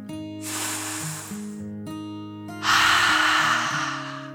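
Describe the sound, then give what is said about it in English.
A storyteller's voice imitates a dragon waking and taking a deep breath: a long airy inhale, a brief pause, then a louder, longer rushing exhale, all over soft sustained background music. “In the cozy cave, Dragon slowly woke up and stretched, taking a deep dragon breath in and out.”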